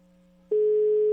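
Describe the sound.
Ringback tone of a telephone call waiting to be answered: a faint steady hum, then from about halfway a loud single-pitched tone holds steady to the end.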